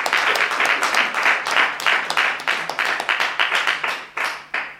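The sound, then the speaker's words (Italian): Audience applauding in a hall, many hands clapping in a dense, steady patter that stays loud for the whole stretch, with only slight swells and dips and no talk over it. “Spero che puoi sentire l'applausi, c'è stata una sala che ti ha applaudito tantissimo”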